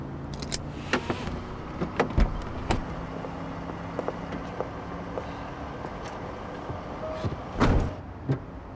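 Sharp mechanical clicks of car doors being locked from inside a parked car, a few quick clunks spread through a quiet interior hum, with a louder burst near the end; no talking.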